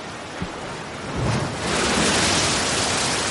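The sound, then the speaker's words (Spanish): Waves break against rocks on a beach in a hissing rush that swells after a faint early knock, then settles into a loud, sustained roar of surf. “Las olas rompen contra las rocas”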